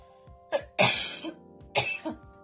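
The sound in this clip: A person coughs and clears their throat from a tickle in the throat. There are a few fairly soft, raspy bursts, with two stronger coughs and smaller throat-clearing sounds between them.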